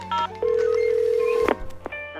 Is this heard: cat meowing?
no

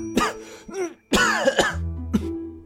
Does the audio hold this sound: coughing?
yes

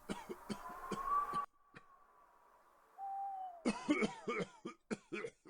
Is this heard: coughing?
yes

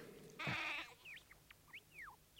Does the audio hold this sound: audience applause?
no

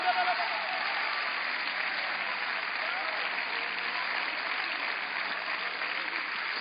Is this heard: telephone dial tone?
no

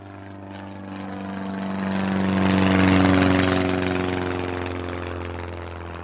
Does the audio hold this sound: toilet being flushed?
no

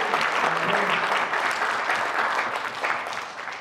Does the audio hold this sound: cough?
no

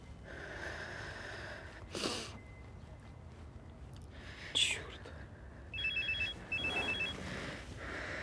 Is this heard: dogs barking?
no

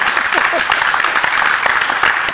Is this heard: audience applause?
yes

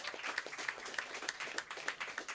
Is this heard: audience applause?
yes

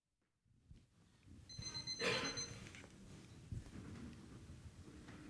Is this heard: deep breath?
no

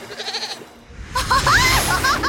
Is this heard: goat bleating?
yes

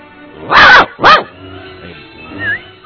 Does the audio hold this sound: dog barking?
yes

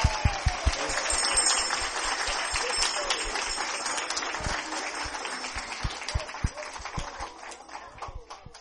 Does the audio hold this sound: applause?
yes

